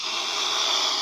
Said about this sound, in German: Ob ihr es glaubt oder nicht, was ihr da hört, ist ein Schwan. Genauer gesagt, eine Schwänin. Die war stocksauer, als wir mit dem Boot ziemlich nah an ihr Nest gekommen sind.